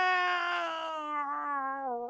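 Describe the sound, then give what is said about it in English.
A single long, drawn-out cat meow, loud and sustained, its pitch sliding slightly downward toward the end. “Do you got another cat going meow”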